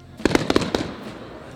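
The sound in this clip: Fireworks go off at an outdoor display near a sports centre. A quick burst of several sharp, crackling bangs in under a second fades into a rumbling wash of noise.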